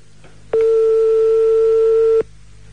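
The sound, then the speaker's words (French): A telephone ring tone sounds on a live radio call: one steady, loud, pitched tone holds for a little under two seconds, with a faint low hum before and after it. “Je compose le numéro de téléphone en direct que tous les auditeurs entendent bien.”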